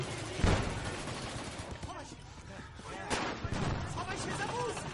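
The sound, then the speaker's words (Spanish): An artillery shell falls and explodes nearby in a World War II Holocaust film. Heavy booms stand out within a dense, loud din of battle noise that runs without pause through the whole stretch. “Un proyectil cae cerca de ellos.”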